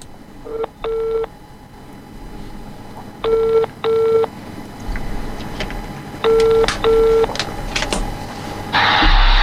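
Touch-tone beeps as a telephone number is dialed: six short steady tones in three pairs separated by pauses, with faint clicks between them and a brief burst of noise at the end.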